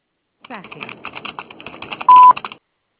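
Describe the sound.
Telephone tones on a call line: a rapid, irregular run of short clicks and beeps, then one loud steady beep of about a quarter second, followed by silence.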